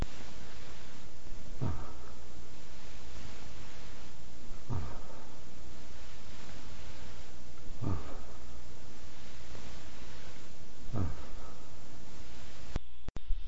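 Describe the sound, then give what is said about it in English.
Four non-articulated breathy 'ah' exhalations played back from tape, evenly spaced about three seconds apart. Each is soft and brief over a constant tape hiss, and a click comes at the very end. “That was not one breath repeated 4 times. It was 4 successive breaths on my part, breathing at the rate of 18 breaths per minute.”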